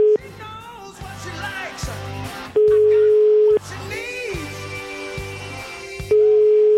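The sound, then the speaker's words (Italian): A telephone line rings while a call to a union office connects: two long, steady ringing tones, each about a second and a few seconds apart, sound loudly over a rhythmic background of music. “Sentiamo la CGIL che abbiamo preso la linea.”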